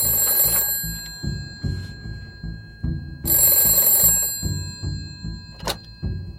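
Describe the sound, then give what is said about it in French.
A telephone bell rings in a family home in two loud, bright bursts separated by a pause, over a steady low thudding pulse. “Tout au long du film, la sonnerie de téléphone retentit de façon incessante chez les Bergueron, la quiétude du foyer.”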